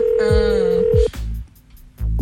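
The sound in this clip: A phone call rings out during a call-in game, a steady ringback tone holding for about a second before cutting off, with voices talking over and around it.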